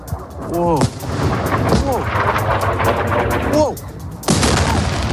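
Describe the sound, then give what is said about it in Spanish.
Gunfire and explosions during an Iran and Hezbollah attack on Dimona, Israel. Loud, rough bursts of blasts and crackling fire run throughout, with a few sharp booms and voices heard amid the noise. “Este ataque que escuchas dejó más de 120 heridos y es especialmente sensible porque Dimona, esa localidad israelí, alberga una de las principales instalaciones nucleares del país, que no ha sufrido daño alguno.”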